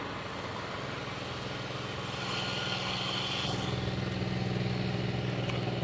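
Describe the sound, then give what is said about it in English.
A riding lawn mower engine running right beside the listener, a steady, rough droning that grows a little louder partway through and continues without a break, with no talk over it. “Guy just started up his riding mower right beside me.”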